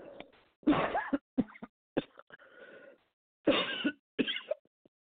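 Throat clearing and coughing from a man with something stuck in his throat while reading aloud, a few harsh bursts separated by brief silences.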